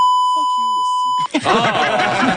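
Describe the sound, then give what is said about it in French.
A steady high censorship bleep covers a swear word for just over a second, with the speech still faintly audible beneath it, before clear talking resumes. “On l'entend parler. Ça enlève un petit peu l'utilité du bip, si vous voulez mon avis.”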